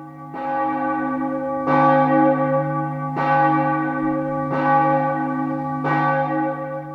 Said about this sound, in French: L'horloge sonne 9h à l'église de Saint-Gilles.